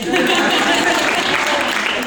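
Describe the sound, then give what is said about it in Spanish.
Audience applause at a feminist assembly, a thick and steady stretch of clapping with voices mixed in. “Un aplauso.”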